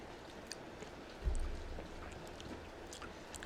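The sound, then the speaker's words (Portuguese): Someone chews food during a meal, making soft, irregular mouth clicks and light crunches, faint and with no talk. A duller low thump sits midway. “tô comendo, mas tô com fome.”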